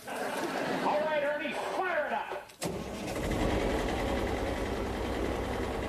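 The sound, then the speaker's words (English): A John Deere 850B long-track bulldozer with 165 horsepower drones loud and low after a stretch of talking, its engine noise abruptly taking over and holding steady to the end. “You hear that? That is the biggest bulldozer in town. The John Deere 850B long tracker dozer with 165 horsepower?”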